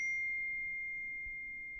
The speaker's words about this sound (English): That's the sound of the default text notification on the iPhone 5S and the new iPhone 6. It's called Note.